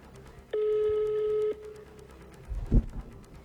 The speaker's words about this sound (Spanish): Vamos a volver a marcar, porque somos cheverongos. Otra vez.